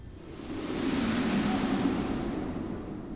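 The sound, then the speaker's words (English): Wind picking up around a hot air balloon in flight: a broad rushing whoosh that swells after the first half second, holds steady and eases slightly near the end. “Yes, the wind is picking up.”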